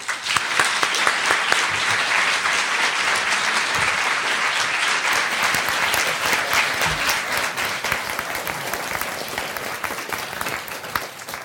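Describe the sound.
An audience applauds loudly to give a professor a warm welcome at an event, with continuous, dense clapping that stays steady for the full length and eases just a little near the close.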